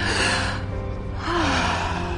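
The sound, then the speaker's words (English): A group taking deep breaths together: two long, airy rushes of breath separated by a short lull, with a brief voiced tone during the second breath. “Let's take some deep breaths, okay?”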